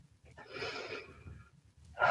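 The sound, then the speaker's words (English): A slow cleansing breath from the Lamaze breathing technique taught for labor pain: a soft, airy exhale lasting about a second, then a brief pause before a sharper, louder intake of breath begins. “Just call it a cleansing breath”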